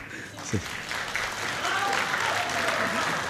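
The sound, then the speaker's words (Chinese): Thin, sparse applause comes from an audience at a live traditional crosstalk comedy performance, scattered claps settling into steady light clapping while a voice speaks over it. “感谢朋友们稀稀拉拉的掌声”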